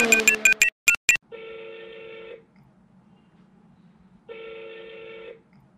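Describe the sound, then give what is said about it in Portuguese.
Touch-tone dialing of an international call to Germany: a quick run of short beeps, then two long, steady ringback tones about a second each, separated by a pause of quiet line hiss. “Há alguns dias eu peguei o telefone e liguei para o Colin Coles na Alemanha para entender direito o que é que eles planejavam.”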